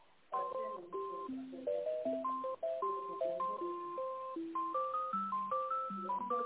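A phone ringtone plays a New Year melody. Bright electronic single notes step through a quick, rhythmic tune after a brief silence, sounding alone at a steady level.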